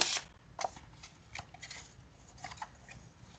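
Paper note cards being shuffled and handled, a few soft rustles and flicks, faint and sparse against near silence.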